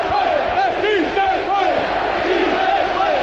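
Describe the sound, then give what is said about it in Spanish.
Hércules footballers celebrate in a huddle after qualifying with a winning goal in Murcia. Their voices shout and chant together loudly and steadily throughout. “Así suena el corrillo con los futbolistas del Hércules.”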